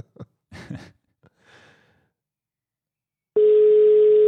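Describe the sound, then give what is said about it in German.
A telephone line tone sounds as a call to Spain connects. After a few soft breaths and quiet moments, a steady, loud, continuous tone starts abruptly and holds to the end. “So, mal gucken, wie die Verbindung nach Spanien ist.”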